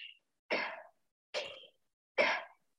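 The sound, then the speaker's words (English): Breaths drawn in and out on a K shape of the mouth as a singing exercise, four short, breathy hissing bursts separated by silence, the first clipped at the start. “you can hit it easily when you breathe in on a K and out on a K. So it sounds like this”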